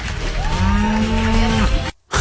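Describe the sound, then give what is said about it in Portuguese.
A cow moos at a cow beauty contest in Galicia, Spain. The single long, loud, low moo holds steady for nearly two seconds over a noisy background, then cuts off abruptly. “Tudo a mugir, as vacas todas a mugir agora. Porque elas não conseguem bater palmas, são os aplausos, né? Mas ela vai mugir agora.”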